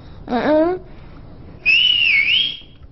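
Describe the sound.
A person whistles one sustained, high, wavering note for about a second, after a brief vocal sound.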